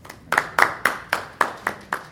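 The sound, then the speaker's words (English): An audience at a Board of Education meeting claps in an echoing room. The clapping is rhythmic and evenly spaced, about seven firm claps, each with a ringing decay. “The problem with this room is that it really echoes, doesn't it? We need more applause.”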